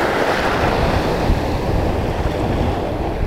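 Waves break on a beach in a continuous, loud, rushing wash of surf, with steady wind noise and no distinct single crashes.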